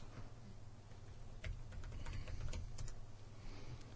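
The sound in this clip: Faint, irregular keystrokes clatter on a computer keyboard while someone types in a search about coordinates, the quiet clicks scattered over a low steady hum.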